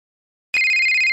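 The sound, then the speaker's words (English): A mobile phone ringtone cuts in abruptly after half a second of silence: a loud, steady high electronic tone with a rapid, even pulsing flutter. “That's my phone, you idiot. I'm right here. Why would you ring my phone when I'm...”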